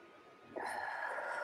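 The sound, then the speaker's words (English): A deep breath is drawn in during a guided release exercise. The soft, airy inhale starts midway and holds steadily to the end, faint and alone. “So big breath in.”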